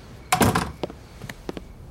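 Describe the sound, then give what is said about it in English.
A door opens by its doorknob, starting with a short rattling burst from the handle and latch and followed by a few light clicks and taps. “She reached back for the doorknob and led me inside.”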